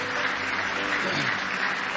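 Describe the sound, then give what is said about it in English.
An audience giving a hand clap of praise during a morning church service, with a steady wash of many hands clapping at an even level throughout. “Praise the Lord. Give Him one more hand clap of praise this morning.”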